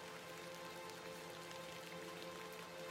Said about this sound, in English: A bit of rain won't kill me, will it?